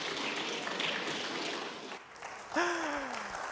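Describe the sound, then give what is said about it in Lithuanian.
Audience applause at a press professional-day gathering: a dense, steady wash of many hands clapping that dips briefly at about two seconds, then swells again. “Pasveikinkime galbūt plojimais ir juos su šią profesinę dieną.”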